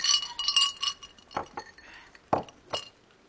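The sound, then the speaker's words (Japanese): Glasses clink together in a toast, with a few bright, short chimes spread out among soft rustling and handling noises, at a modest level. “乾杯。 乾杯。 乾杯。”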